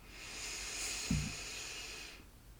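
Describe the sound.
A deep inhale during a breathing exercise: a faint, steady airy hiss that lasts about two seconds, with a brief low snuffle partway through.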